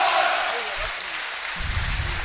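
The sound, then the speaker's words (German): A stadium crowd applauds as a football player is substituted and leaves the field. The broad, steady clapping runs under a commentator's speaking voice and swells slightly near the end. “jetzt bekommt er auch seinen Riesenapplaus und wird hier gefeiert und mit Klatschen vom Feld begleitet.”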